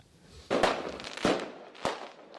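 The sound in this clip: Firecrackers exploding, in an advert for a pyrotechnics shop in Vilafranca del Penedès: a few sharp, loud bangs, each with a brief crackling tail, heard alone without talk.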